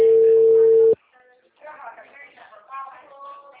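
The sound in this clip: A telephone busy signal on a repeated call: one steady, loud tone lasting about a second that cuts off abruptly, followed by people talking.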